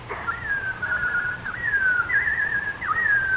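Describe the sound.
Robin song heard as a bright, whistled, bird-like melody: long gliding notes with quick upward flicks, steady and fairly loud over a soft background hiss.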